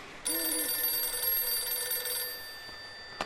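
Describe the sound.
A telephone bell rings in one steady, bright ringing burst of about two seconds. It then stops abruptly and fades out, with no voices.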